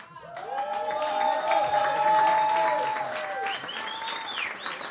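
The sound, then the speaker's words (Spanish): Audience applause for a visiting band: a dense wash of clapping that swells and holds steady for about five seconds, with sustained high whistling tones riding over it. “antes de seguir quiero pedir un fuerte aplauso para los chicos de Voltaje.”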